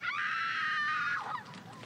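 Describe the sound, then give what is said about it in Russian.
A single high-pitched scream, added as a background sound effect, holds steady and loud for about a second, then drops away into a rougher, breathy tail. “Может добавить крики? Крики – это хорошо. Фоновые крики – знаете, что нам нужно?”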